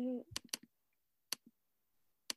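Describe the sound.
Keys clicking on a computer keyboard, a handful of sparse, sharp taps with gaps between them, after a brief voice at the start.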